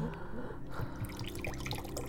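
Water is poured in a steady, soft trickle with light splashing and drips throughout the short moment.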